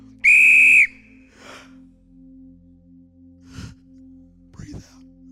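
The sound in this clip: A whistle sounds one loud, shrill blast lasting about half a second. A few faint breathy sounds follow in the quiet afterward.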